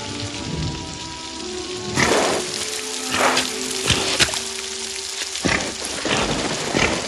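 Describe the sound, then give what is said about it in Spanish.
Heavy rain pours down in a dense, steady roar, with several louder gusts of downpour and low rumbles of thunder mixed in, and no voices. “aparece en la entrada de la cueva empapado por la intensa lluvia que ha comenzado a caer.”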